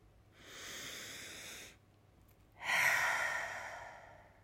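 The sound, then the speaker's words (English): A deep breath, with a long, steady breathy inhale, a brief pause, then a louder, longer exhale that gradually fades, soft and alone with no talk. “And I wanted to just pause again and take a nice deep breath.”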